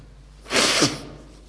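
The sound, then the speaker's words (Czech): A single forceful nose blow, a hissing burst of about half a second that rises out of near quiet and then fades away, with no one speaking. “Tak mě to dojalo, že jsem si musel vyčistit chřípí.”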